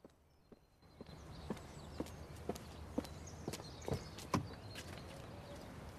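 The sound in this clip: Footsteps of a woman stalking out of a house's front door toward her car: many sharp, moderately loud steps at a steady, brisk pace over a low background hum.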